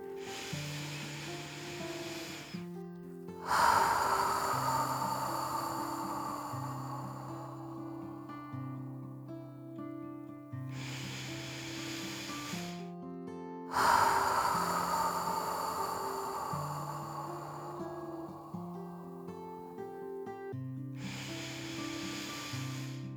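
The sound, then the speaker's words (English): Deep breaths drawn in: two long, airy inhales that swell and slowly fade over a soft, sustained musical backing, with a quiet gap between them. “So taking three big breaths all the way in.”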